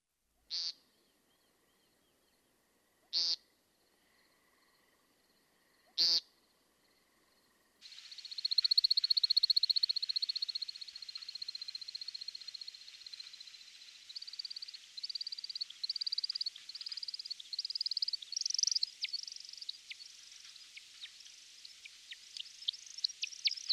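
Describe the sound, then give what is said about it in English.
An American Woodcock gives three short, buzzy calls spaced a few seconds apart, then a long, high, continuous twittering that breaks into rapid chirps toward the end, all faint against silence. “American Woodcock.”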